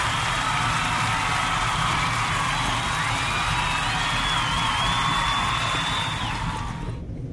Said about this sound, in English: That applause is for my downloaders and my listeners that's been listening to